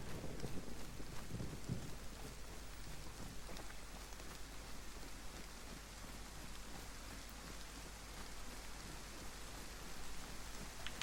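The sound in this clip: Heavy rain pours down in a continuous, dense hiss that stays level throughout, without breaks and with no voices.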